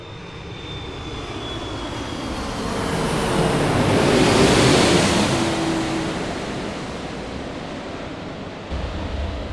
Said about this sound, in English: next little clip of some lovely noise of aircraft